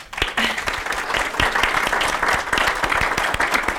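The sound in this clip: An audience applauds to welcome two speakers on stage at a book talk, with many hands clapping in a steady burst at moderate loudness from start to end.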